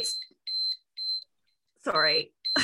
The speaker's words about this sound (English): it's going to beep. Oh, you've got one. Everybody. Yeah, it's a visual timer and it has actually been helping like a lot.